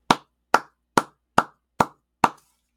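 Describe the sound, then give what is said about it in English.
Six crisp hand claps by a single person, evenly spaced and fairly loud, each a sharp slap with a quick decay, heard alone with no voices. “give a little round of applause, my own personal applause rather than the sound effects.”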